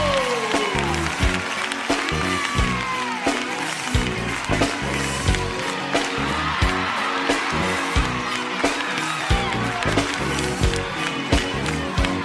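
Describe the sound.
Audience applause and cheering welcome a country performer onto a stage, a dense, sustained roar of clapping mixed with loud rhythmic music.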